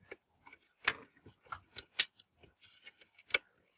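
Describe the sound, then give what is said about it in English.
Sharp, dry clicks from a screwdriver as the mounting screws of a power supply circuit board are unscrewed, an irregular series of many ticks with a few louder snaps standing out in an otherwise quiet setting. “now unscrewing the mounting screws of the power supply PCB. One screw.”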